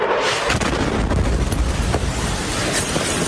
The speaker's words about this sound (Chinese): 正在直播过程中，正在感谢大家的捐款和资助的时候呢，突然这个呃炸弹掉了下来啊